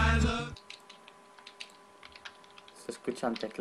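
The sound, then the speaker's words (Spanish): Typing on computer keyboards: many quiet, irregular key clicks, with denser, louder bursts near the end, preceded by a brief voice at the very start. “Se escuchan teclados.”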